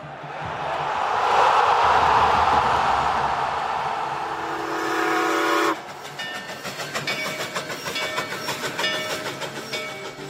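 Steam train effect: a loud, rushing whistle-like blast holds for several seconds, then cuts abruptly to the rhythmic clickety-clack of rolling wheels with faint ringing tones.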